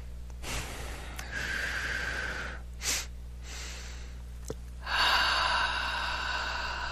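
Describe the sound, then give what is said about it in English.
Slow, deep breathing during a guided relaxation exercise. A few long, airy inhalations and exhalations come with soft sniffing and gasping edges, moderately loud, with no talking. “Just take a nice deep breath,”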